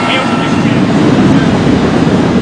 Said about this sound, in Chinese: 直升机穿越高山峡谷，向吉隆河下游飞去